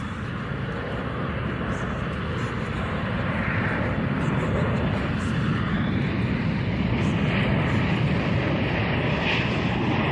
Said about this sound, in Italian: No, con l'aereo, aeroplano.